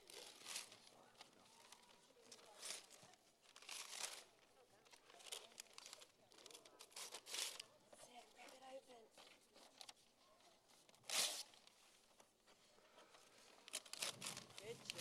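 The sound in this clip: Wrapping paper crinkles and tears as a gift is unwrapped: many irregular bursts of crisp rustling run through the whole stretch, with one especially sharp, loud rip partway through and a few more at the end.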